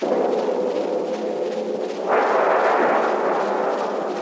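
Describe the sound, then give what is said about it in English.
A gunshot fired at a ship in a radio drama bursts in midway over a constant noisy bed and swells into a sustained, roaring rumble that holds to the end. “A direct hit. She's blown to pieces. Fire! Where's the man that fired that shot?”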